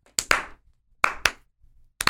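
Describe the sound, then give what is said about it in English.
A slow clap from the video game Portal 2: sharp hand claps in three spaced groups, each with a doubled attack and a brief ring, separated by clear silence. “Oh, good. My slow clap processor made it into this thing.”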